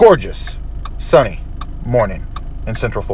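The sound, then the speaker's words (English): A car's turn signal clicks softly and steadily while the driver waits at an intersection in Orlando, Florida. The light, regular ticks sit beneath a person talking throughout. “So that clicking sound you're hearing, that's my blinker.”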